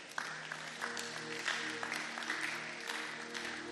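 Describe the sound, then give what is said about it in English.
Audience applause for a church choir: dense, steady clapping from a crowd that holds at an even level for several seconds, with faint voices in the mix. “The old choir of the church came together to sing this song. Let's clap for them.”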